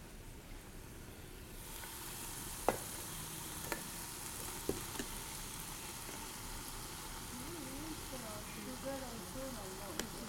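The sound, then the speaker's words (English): Rice added to a hot frying pan for a Thai dish with green peppers sets off a steady, bright sizzle that swells in after a quieter start, with a few sharp utensil clicks and a voice talking near the end. “All right, I think it's good now to add the rice”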